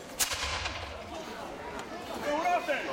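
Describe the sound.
A single sharp gunshot, fired on command during a battle reenactment weekend, cracks loudly near the start and decays into a noisy tail, with faint voices afterward.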